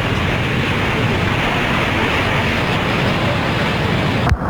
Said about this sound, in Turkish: Beklenen yağış hava kararırken başladı ve giderek şiddetlendi.